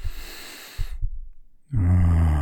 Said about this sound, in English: Become aware of your breathing. As you breathe in,